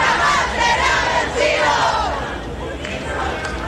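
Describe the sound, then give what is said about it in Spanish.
Crowd shouting and yelling at a campaign rally for candidate Jeannette Jara while supporters wait for her to speak from the stage, a loud, steady roar of massed voices that eases slightly toward the end. “gritan cada cierto tiempo a la espera justamente de las declaraciones que va a dar la candidata Janet Jara acá, en este escenario. Escuchemos parte del ambiente que se está dando hasta ahora acá.”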